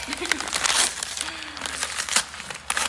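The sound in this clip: Gift wrapping is ripped open, producing bursts of crinkling and tearing paper in irregular rustles, with voices talking in between.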